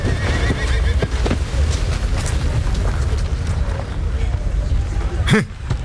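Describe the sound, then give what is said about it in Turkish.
A valuable mare gives a sharp, loud whinny near the end, after several seconds of steady, noisy rumbling with faint scattered knocks. “Böyle kısrakların önünde şapka çıkarmanız gerekir. Onlar çok değerlidir.”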